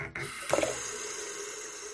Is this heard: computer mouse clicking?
no